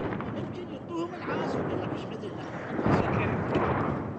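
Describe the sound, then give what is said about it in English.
Gunfire from street fighting in Najaf in 2004: dense, noisy bursts of shots and rumbling blasts under voices. “Street fighting in Najaf in 2004.”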